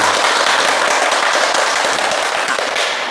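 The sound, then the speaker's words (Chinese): Audience applause welcoming a professor as guest at a classroom poetry recitation, a dense crackling wash of many hands clapping, loud and steady throughout and easing slightly at the end. “今天呢，我们非常高兴的邀请到了国家语委咨询委员、中国传媒大学的姚喜双教授，我们掌声欢迎。”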